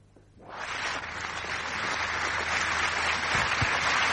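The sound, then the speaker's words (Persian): An audience bursts into applause for two guest artists coming on stage, the clapping swelling quickly from quiet into a loud, sustained wash of many hands. “دو تا مهمون هنرمند داریم که اونا رو روی صحنه دعوت میکنیم، براشون دست میزنید و میان روی صحنه.”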